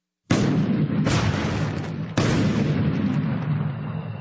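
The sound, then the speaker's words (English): Airburst detonation of a bomb: a sudden, loud roaring blast followed by two more bursts that merge into one long, dense rumbling roar that slowly fades. “This airburst detonation vastly increases the weapon's destructive range. What we're doing is we're maximizing the blast, the shockwave, if you will.”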